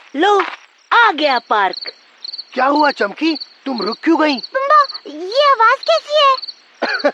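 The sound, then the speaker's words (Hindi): Crickets chirp in a park, a steady high-pitched pulsing trill that runs beneath animated voices talking almost throughout. “चमकी ये तो झिंगुर की आवाज है, ध्यान से सुनो, तुम्हें ऐसा लगेगा जैसे तुम कोई संगीत सुन रहे हो।”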